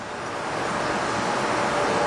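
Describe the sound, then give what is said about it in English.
Strong wind blowing outdoors, a steady, even rushing noise that holds throughout without gusting breaks, and no voices. “I feel the wind strongly blowing against my right side.”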